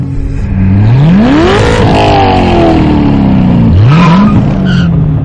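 A car accelerates at full speed in a thriller chase, its loud engine roar climbing sharply in pitch, holding high, then surging again with a second quick rev near the end.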